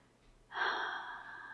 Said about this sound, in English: Watching the changes in your body as I blow my hot breath over your skin.